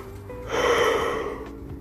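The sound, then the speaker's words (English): A single yawn, a drawn-out breathy exhale that swells and then tapers off over about a second, fairly quiet and with no speech. “Why am I yawning? It's only 6 p.m.”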